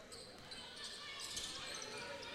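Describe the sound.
A basketball is dribbled during a high school boys' game, with repeated low bounces under a steady wash of crowd noise.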